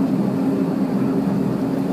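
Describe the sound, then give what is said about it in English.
Steady droning of a spinning aircraft propeller and engine, a loud, even low rumble with a buzzing tonal hum that holds constant throughout. “Can you even see the propeller, or is it spinning too fast? It's spinning too fast.”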